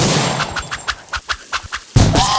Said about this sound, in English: Fire the harpoon!